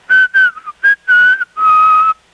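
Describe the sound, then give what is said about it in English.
Whistled imitation of a radio station jingle: a short tune of several clear, bright notes in quick succession, closing on a longer held note, whistled alone without talk. “there was a station, I always thought it was Mexico, but might not have been, and it had a little whistle jingle. It was a lot higher than this, but it went,”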